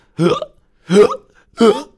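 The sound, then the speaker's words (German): Three sharp hiccups from an excited cartoon dinosaur, voiced by a performer, come at an even spacing. Each is a short, throaty, voiced gulp with a quick upward squeak, and there is silence between them. “Da ist er wieder, dieser dinomenale Schluckauf. Der erwischt unseren Dino immer, wenn er aufgeregt ist.”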